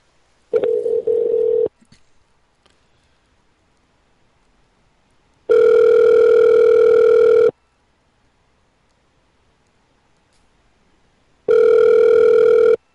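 Ringback tone of an outgoing phone call waiting to be answered: three steady buzzing tone bursts with long stretches of near-silence between them. The first and last bursts are shorter than the middle one.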